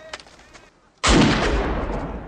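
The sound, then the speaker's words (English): A pistol is fired right beside a man's ear during a reloading drill: one sudden, very loud gunshot with a long, roaring decay, preceded by faint voices. “And he's firing the pistol in his ear”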